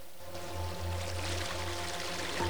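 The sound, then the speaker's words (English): A jungle stream with waterfalls flowing downhill gives a steady rushing, pouring wash of water that stays broad and level from start to finish, with no voices. “Beckett and Miller are following the stream and its waterfalls downhill”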